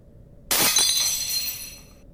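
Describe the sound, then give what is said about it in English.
A teacup smashes on the floor with a sharp crash of breaking china, then a bright spray of tinkling shards that rings on and slowly fades. “So here's the sound of a teacup smashing on the floor.”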